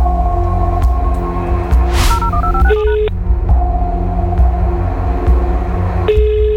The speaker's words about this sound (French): Allez, on y va. Composer directement les lignes.